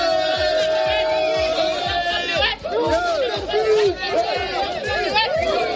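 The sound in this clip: Crowd of migrants at the Melilla border with Morocco shouts and chants, many overlapping voices rising and falling over rhythmic low pulses, loud and sustained.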